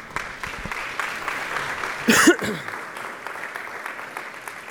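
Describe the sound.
A church audience applauds to welcome a preacher to the front, a steady wash of clapping throughout with a brief louder swell near the middle.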